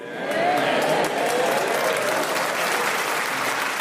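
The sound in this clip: Studio audience applause on a comedy panel show, a dense wash of clapping that swells quickly at the start, then holds steady and fairly loud to the end, with a brief vocal whoop near the beginning.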